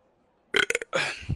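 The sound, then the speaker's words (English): A loud burp bursts out in a few short, choppy pulses, then stretches into a longer, sustained belch that rumbles low before cutting off. “I actually do burp, by the way.”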